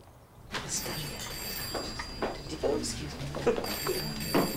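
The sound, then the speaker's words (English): A telephone bell rings in a staff party at an old hospital, a thin, steady high tone repeating beneath a person speaking over it. “A woman with glasses leaves the party to answer the phone.”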